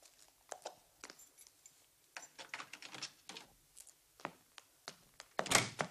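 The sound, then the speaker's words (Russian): Hurried footsteps of a person running up a stairway while pulling out keys: many soft, uneven thuds and clicks, with a brief bright metallic jingle of keys near the end. “Бегом поднимается по лестнице, на ходу вытаскивая ключи.”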